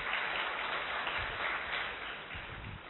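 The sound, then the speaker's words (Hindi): Audience applause, a dense, steady wash of many hands clapping at once, even in loudness throughout with no voices over it. “अपने लिए ताली बजाओ।”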